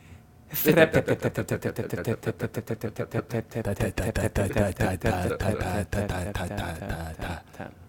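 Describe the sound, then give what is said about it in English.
A prize wheel spun on a game show: a loud run of rapid ticking clicks that keeps a steady beat, then gradually slows toward the end. “Let's give that wheel a spin.”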